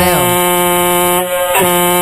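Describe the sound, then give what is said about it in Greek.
A horn blares loudly and steadily for about two seconds as one unbroken, buzzy tone, briefly dipping near the end before it resumes. “Ω, κόρνα.”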